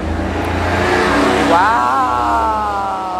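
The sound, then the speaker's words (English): A car engine roars loudly as the vehicle races fast down a neighborhood side street. The steady, heavy drone climbs sharply in pitch about halfway through, then holds at the higher revving tone to the end. “So sometimes people in the neighborhood just feel the need to like race down a side street mad fast and be really, really loud.”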